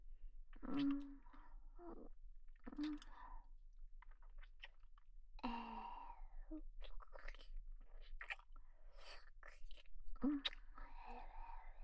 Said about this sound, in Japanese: まだまだ残ってるから食べるね。